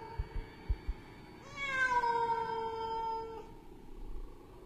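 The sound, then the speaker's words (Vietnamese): A cat's single long, drawn-out meow, mournful with an angry edge, lasting about two seconds and gliding slightly in pitch. Faint overall, with a few soft low thumps before it. “Trong không gian vang lên âm thanh con mèo kêu đến não ruột. Mà dường như trong âm thanh của con mèo lại pha một chút giận dữ.”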